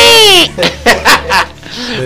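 A baby girl cries with a loud, high wail that falls in pitch, followed by a few shorter sobbing bursts and softer whimpering.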